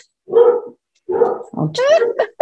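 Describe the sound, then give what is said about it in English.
Dogs barking at home: a few loud, full barks give way to a quick run of higher, whiny yips, loud and close, with no talk over them. “going to let them bark for a minute. They're just making sure I'm okay.”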